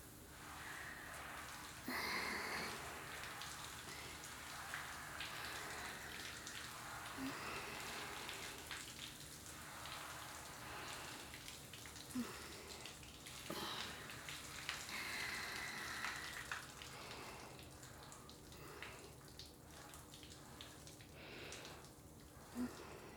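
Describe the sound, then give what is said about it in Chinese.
Shower water rinsing a person: a steady spray hiss with scattered droplet patter and splashes, continuous and fairly even throughout, with no talking. “来，站过来一点，帮你冲水咯。”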